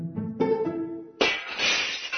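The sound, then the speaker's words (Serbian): A drinking glass breaks with a sudden bright crash partway through, followed by a sustained glassy shattering that slowly fades. Short tonal notes come just before it. “Šta je to? Šta se dešava? Razbila sam čašu.”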